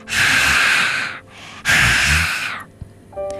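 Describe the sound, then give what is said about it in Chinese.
A hedgehog breathes out into a hollow in a tree: two long, loud, airy exhalations with a short pause between them. A soft click and a faint trailing tone follow. “小刺猬探进树洞，小心地向里面呼气。”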